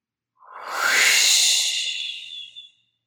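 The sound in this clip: A single slow, deep breath, a soft airy rush lasting about two seconds, taken alone and unhurried during a guided relaxation exercise.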